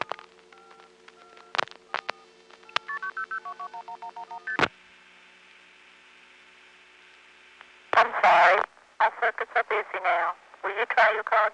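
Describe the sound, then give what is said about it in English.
Touch-tone dialing of a 900 area code number: a quick series of short dual-tone beeps, followed by a long steady tone, then a person speaks. “I'm going to dial a 900 area code call and notice how it routes and where it goes.”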